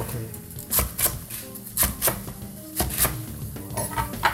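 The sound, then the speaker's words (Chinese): Knife slicing Chinese cabbage on a cutting board: many crisp, sharp cuts in an uneven rhythm, moderately loud with no talking. “白菜， 白菜我们就直接切片就好了。”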